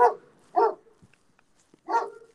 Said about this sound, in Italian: Non ci fate caso. E, ehm, sono dei cani che puoi passare anche 800 volte a salutarli ma ti abbaiano.